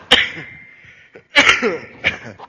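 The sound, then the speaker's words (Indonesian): A few short, dry coughs from someone with an allergy, separated by brief pauses, the middle burst doubled. “Alergi batuk-batuk.”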